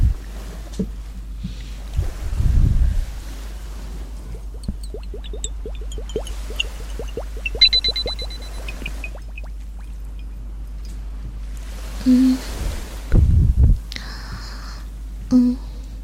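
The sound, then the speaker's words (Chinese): Water splashing and sloshing in a few short, separate bursts over a quiet, low background, with gaps of near-silence between them. “接下来呢，我给你听一个好听的水的声音”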